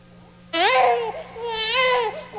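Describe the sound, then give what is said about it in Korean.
An infant crying, heard alone in two drawn-out, wavering wails with a bright, strained tone, over a faint low hum. “아기는 태어나자마자 왜 울지?”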